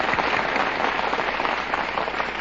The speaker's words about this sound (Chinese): 让我们还是多位无名英雄鼓鼓掌吧。